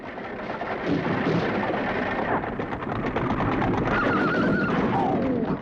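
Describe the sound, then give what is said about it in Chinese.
A horse-drawn carriage speeds across wilderness with a dense, steady clatter and rumble of hooves and wheels. A horse whinnies partway through. “疾驰在荒原上的马车，此刻是这样平静”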